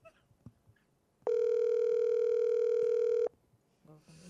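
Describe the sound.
An outgoing phone call's ringback tone: one long, steady, mid-pitched electronic tone lasting about two seconds, with faint background noise before and after.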